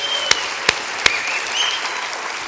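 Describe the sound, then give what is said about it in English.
An audience at a Bible talk applauds a welcomed guest. A full, steady wash of clapping runs throughout, with three sharper, louder claps standing out near the start. “Let's give our guest a great hand.”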